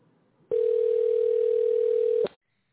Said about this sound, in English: Somebody called me on the regular phone.